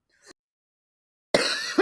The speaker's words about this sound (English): And there's your cough.